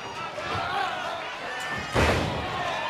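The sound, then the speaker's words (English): A wrestler is body slammed onto the ring mat during a multi-man tag match, landing with one heavy thud over a constant roaring crowd. “Violent slam to Kenny King! Look at the power!”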